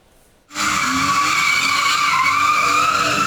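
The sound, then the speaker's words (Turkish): Loud, steady, high-pitched tyre screech from a car drifting on a street in Keçiören, Ankara. It bursts in after a brief silence and holds continuously to the end. “Ankara Keçiören'de drift yaparak hem çevreye rahatsızlık veren hem de trafikteki sürücülerin can güvenliğini tehlikeye atan sürücüye 384 bin lira ceza kesildi.”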